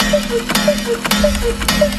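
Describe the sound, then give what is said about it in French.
A cuckoo clock on display at a clock exhibition calls rapidly: four quick two-note falling cuckoo calls in an even rhythm, each with a mechanical click, over a steady low hum. “Petit extrait tout de même d'un coucou qui a bu un peu trop de café.”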